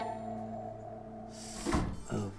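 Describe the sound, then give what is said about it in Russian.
A door is pushed shut, a dull thump followed by a softer second knock, heard over a steady low hum and faint background sound in a room where someone is working with a patient. “могли бы закрыть дверь.”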